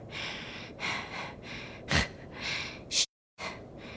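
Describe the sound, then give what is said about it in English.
A voice imitates aggressive breathing: a run of loud, harsh, rasping breaths in and out, one with a sharp snort-like burst midway, then a brief silent break near the end. “And she just hears like this aggressive breathing.”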